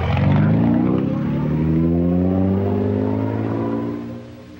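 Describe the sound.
Car engine pulling away as it drives off, a loud steady drone whose pitch climbs as it accelerates before fading toward the end.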